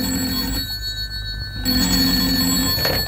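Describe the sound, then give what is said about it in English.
A telephone bell rings in the small hours, in bright, metallic bursts separated by a short silent pause, with a steady ringing shimmer throughout. “Then the telephone rang.”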